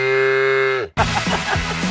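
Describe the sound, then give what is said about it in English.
A cow moos once, a loud, steady, low drawn-out call lasting nearly a second that drops at its end, then gives way abruptly to a busy burst of other sound. “Whoa, is that a buffalo? Babe, that's a cow.”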